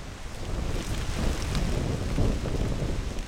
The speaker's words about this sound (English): That's the sound of wet stalks of corn, smacking in the wind at the entrance of Jacob's Corn Maze.